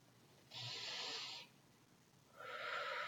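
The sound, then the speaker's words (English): Two long, airy breaths during a guided meditation: a slow, deep belly breath drawn through the nose, followed by a second breath sound after a short pause. Both are soft, steady and heard alone. “And now I'd like you to take a nice deep breath, a belly breath, they call it.”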